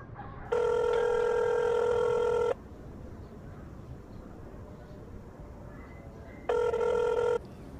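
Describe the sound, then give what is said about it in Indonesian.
Ringback tone of an outgoing telephone call: two loud, steady buzzing rings, the first about two seconds long and the second shorter, separated by a long gap of low background hiss. “Ibu juga mau teleponan dulu sama Bu Tresno.”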